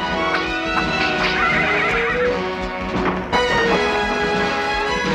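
A horse whinnies and its hooves gallop in the opening of a 1980s animated masked-swordsman series. The neigh rings out over a busy, sustained backing with rhythmic hoofbeats, steady and loud throughout.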